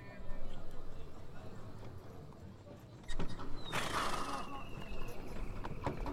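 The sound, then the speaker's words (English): Clip-clop of horses' hooves pulling a wagon for a tour, a steady rhythmic beat of hoofbeats on a hard surface running throughout with a brief burst of noise midway. “I've got sounds for a wagon. Here we go.”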